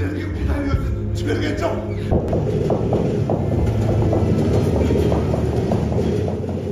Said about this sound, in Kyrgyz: Батыштан чыгышка, чыгыштан батышка тынбай каттаган поезддердин үнү коштоп